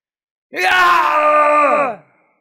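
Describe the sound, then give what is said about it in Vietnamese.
A man's loud, strained shout as he pushes his hands together in front of him: one sustained, voiced yell lasting about one and a half seconds. It holds a steady, harsh tone, then falls away at the end. “Trong miệng của Đỗ Thanh Dương phát ra một tiếng hét to, hai tay mạnh mẽ hợp lại trước người”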